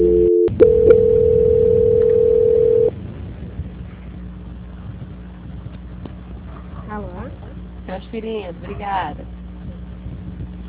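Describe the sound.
A steady telephone tone plays while a call is being transferred, holding one loud, even pitch for about three seconds, then dropping away to a quieter line with faint voices.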